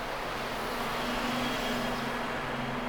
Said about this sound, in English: And to mix in with the traffic sounds, these recordings here were made inside the tunnel, with the installation playing and the traffic intact.